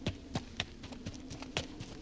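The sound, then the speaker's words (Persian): Galloping horse hooves heading toward an army camp: faint, muffled thuds repeating in a quick, steady rhythm over a low hum. “شمر سوار بر اسب می شود و به سوی اردوگاه امام پیش می تازد.”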